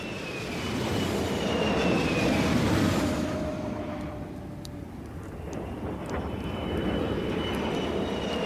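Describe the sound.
Bomber aircraft fly overhead as a staged sound effect: a heavy, sustained engine drone swells to a rumbling roar, then eases and builds again, with faint whining tones threaded through it.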